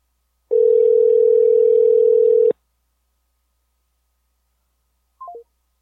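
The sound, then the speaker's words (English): Telephone tones on an outgoing call: one long, steady, loud tone, then after a pause three short beeps that step down in pitch. “Did you hear me try and call him? No, he didn't answer. He didn't answer. No, but did you hear the phone ringing?”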